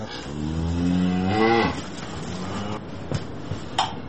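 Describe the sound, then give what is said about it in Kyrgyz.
Cattle kept at a rural home: a long, low moo swells loudly for over a second, then cuts off, followed by quieter shuffling and a couple of faint knocks. “Мугалимдик ишинен тышкары мынтип үйдө мал кармайт.”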